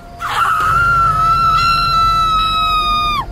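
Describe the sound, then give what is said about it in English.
On a sandy trail by the sea at night in heavy wind, a woman lets out one long, loud, high-pitched scream lasting about three seconds, then drops sharply in pitch as it ends, over a low steady rumble. “I heard a woman scream.”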